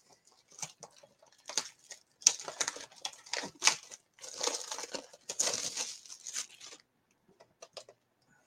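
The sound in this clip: Crinkling and tearing of foil wrappers as sports card packs are opened, with many sharp bursts of rustling and ripping between brief quiet gaps, and no talking.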